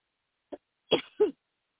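A throat clearing with a cough, brought on by a throat tickle: a faint short rasp, then two stronger, gruff bursts in quick succession, alone in silence.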